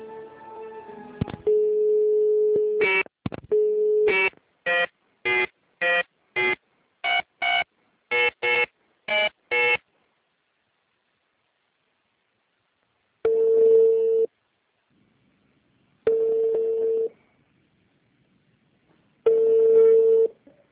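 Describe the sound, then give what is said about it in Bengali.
Telephone tones while a call connects: a steady tone, then a rapid series of many short dialing beeps, then three evenly spaced ringing tones of about a second each with silent gaps between them. “আমরা ফোনে connect করবার চেষ্টা করছি”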